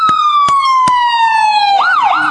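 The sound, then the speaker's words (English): Ambulance siren sounding loudly, a long steady tone that slowly falls in pitch before breaking into a quicker rising-and-falling wail, with three sharp clicks near the start. “I'm going to let this ambulance come through.”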